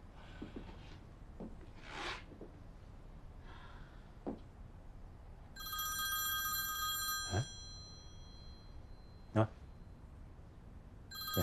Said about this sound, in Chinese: 我打电话。